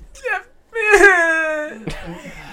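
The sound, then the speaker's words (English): A voice imitating sobbing into a pillow: a brief whimper, then a long, drawn-out wailing moan that sags slightly in pitch and breaks off into a choked, breathy sound. “Sobbing in my fucking pillow till it's soaking wet.”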